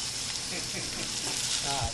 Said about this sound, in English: We're just going to go straight into pan. You can hear the sizzling right there.